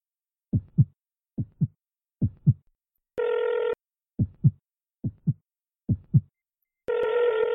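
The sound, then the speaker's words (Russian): A pounding heartbeat and a telephone ringback tone alternate in a tense rhythm. Three dull double thumps are followed by a short ringback tone, then three more double thumps and the tone again. “Из трубки раздался сигнал вызова. Сердце отвечало глухими ударами. Вместе с телефонным гудком оно отбивало сумасшедший техноритм.”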